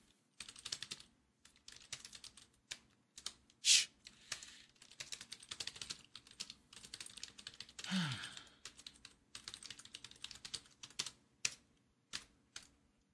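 Keystrokes clatter on a computer keyboard as someone types in another window: a long, faint, uneven stream of quick taps with brief pauses and a few sharper, louder clicks.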